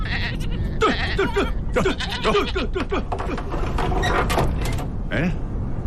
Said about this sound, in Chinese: 母羊要产崽了，天这么冷，小羊羔冻死咋办呢？ 哎呀，快快快，把母羊赶到我屋里来。